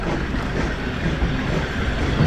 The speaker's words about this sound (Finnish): Junaa jatkaa taas Ahtialasta Vierumäkeä kohti.